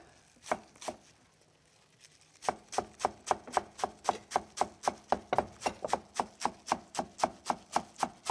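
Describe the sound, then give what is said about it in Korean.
A knife finely chopping halved Korean chives (buchu): two separate chops, a short pause, then a long, steady run of many quick, crisp strikes at an even rhythm. “부추는 이런 조선 부추 같은 거 많이 쓰고요. 예. 호부추 쓰는 경우도 있긴 합니다. 겨울철에는. 네. 그래서 이거를 절반 가르고 그래서 자잘하게 썰어 주시면 되겠고요.”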